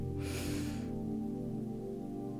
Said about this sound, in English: Deep breath in.